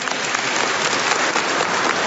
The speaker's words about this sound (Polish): Brawa dla nich!